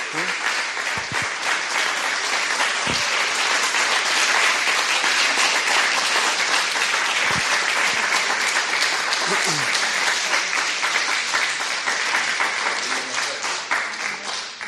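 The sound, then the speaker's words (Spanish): Sustained audience applause at a church gathering as a couple is called forward: thick, continuous clapping holds at an even level for a long stretch, with a voice briefly heard partway through, then tapers off at the end. “le vamos a hacer un aplauso para que pasen adelante”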